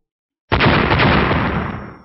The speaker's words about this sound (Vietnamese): Dưới tiếng ầm ầm vang vọng, quang cầu bị chia tách ra thành hai nửa, sau đó quang mang lóe lên trực tiếp nổ vỡ ra.